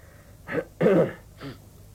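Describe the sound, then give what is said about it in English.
Throat clearing during an audition: three rough, raspy bursts, with the middle one the longest and loudest, each separated by brief pauses and heard alone without talk. “Right, if I ever need a throat clear, I'll be in touch straight away.”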